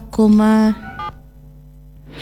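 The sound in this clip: Telephone tones while calling a reporter: a loud sustained tone, then a shorter beep, followed by a low lingering hum.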